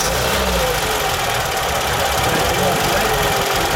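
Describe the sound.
A car engine is restarted on a fast-charging, long-life battery, and a loud, steady, rough knocking drone runs unbroken from start to end.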